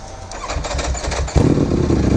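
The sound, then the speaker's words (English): Ducati Panigale motorcycle engine: a rough, throaty rumble that jumps abruptly louder a little past halfway and then holds a harsh, gritty roar until the end. “Yeah, Ducati, obviously, is a... Panigale B4. Fucking crazy. It's crazy sounding.”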